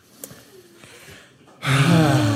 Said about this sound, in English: Should we all take like a deep breath?